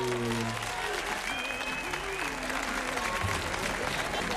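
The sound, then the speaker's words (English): Applause from a live studio audience welcoming the host at the opening of a talk show, a steady, dense wash of clapping that holds at an even level throughout, with faint tonal sounds running underneath. “Yeah, that live studio audience, don't you just love that? I'm glad they could make it.”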